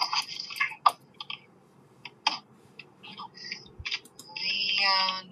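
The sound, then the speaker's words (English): Computer keyboard keys clatter as a name is typed into a search box, a few sharp, irregular clicks and taps separated by short pauses. “Let me type this name.”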